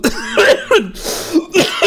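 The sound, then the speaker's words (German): A person imitates someone coughing with a few harsh, loud, rasping coughs in quick succession, with no other talk. “Sie hat genauso gehustet auch dann.”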